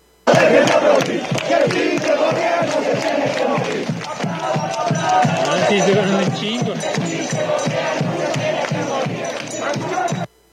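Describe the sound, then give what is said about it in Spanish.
Poli students on a protest march, a large crowd chanting loudly in a strong rhythm: many voices shouting together, steady and dense for about ten seconds before cutting off. “Ahí están, ahí se escucha la marcha del Poli.”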